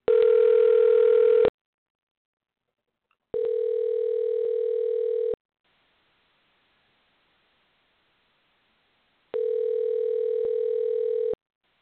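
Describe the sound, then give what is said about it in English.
Telephone dial tone while placing a call: a steady, buzzing electronic tone in three long bursts separated by silent gaps, with no voices. “We are dialing him in now.”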